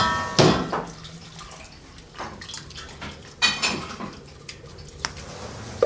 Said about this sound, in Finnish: Mulla on tässä litran kannussa. Tätä 1,5 litraa nyt tätä valmista lientä. Ja kaadan tuonne.